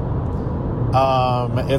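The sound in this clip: A car being driven, heard from inside, with a low steady rumble of engine and road noise running beneath a person talking.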